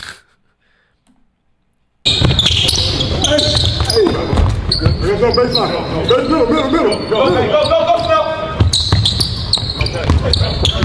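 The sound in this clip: A basketball bounces on the court during an open gym game, with repeated thuds among players talking and shouting, starting after a short silence.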